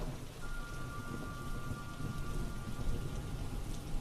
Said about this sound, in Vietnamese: Căn nhà im phăng phắc, tiếng mưa rơi rì rào trong đêm làm cho không khí nó cứ dần dần vừa lạnh lẽo lại vừa quái đản.